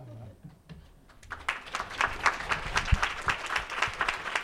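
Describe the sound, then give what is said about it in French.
An ovation from an audience calling a person onstage. After a quiet opening with a brief voice, clapping swells in and grows into sustained, lively applause with many overlapping claps. “Ovation.”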